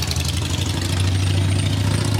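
Loud motorcycle engine running with a steady, deep rumbling drone that holds at a constant level throughout, with no pauses or revving and no voices.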